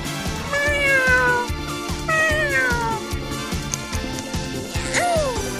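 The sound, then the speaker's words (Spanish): A person imitates a cat meowing: a few drawn-out, wavering meows rise and fall over a steady, rhythmic musical beat. The meows come in separate bursts, with a shorter sliding call near the end. “Tú hablas con los gatos, yo hablo como gato.”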